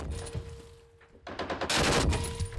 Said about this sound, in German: Weiter schießen. Okay, gut gemacht. Noch eine Salve, dann ist gut.